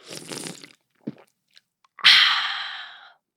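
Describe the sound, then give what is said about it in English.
A cold drink can cracks open with a sharp, bright fizzing hiss that fades steadily over about a second, preceded by soft rustling and a few small clicks. “I'm cracking open a cold one, and I'm taking a sip.”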